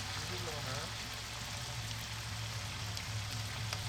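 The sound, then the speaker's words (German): Steady sizzling hiss of 30 kilograms of onions frying for a midday meal in a huge pot about two meters across, holding some 250 liters. The dense crackle is continuous and fairly quiet, with a faint low hum beneath. “Hier werden gerade 30 Kilogramm Zwiebeln angebraten für das Mittagessen.”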